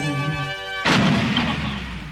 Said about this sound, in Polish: Taki wybuch na koniec